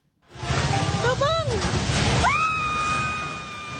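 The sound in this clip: A popular restaurant building collapses onto a street during an earthquake: a loud, sustained crashing roar lasts about three seconds, with high cries rising over it.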